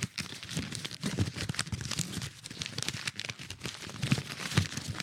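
Paper being folded at the corner to make an origami swan, heard as continuous soft crinkling and rustling with scattered sharper crackles throughout, fairly quiet and without talk.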